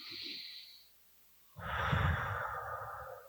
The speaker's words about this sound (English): Take a breath.